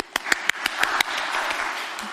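Round of applause in a quiz-style class: about six crisp, evenly spaced claps ring out first, then blur into a softer, continuous patter of clapping that carries on to the end.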